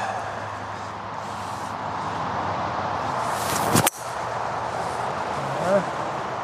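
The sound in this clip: A golf club strikes a ball once, a single sharp crack that cuts briefly through a steady, moderate background hiss.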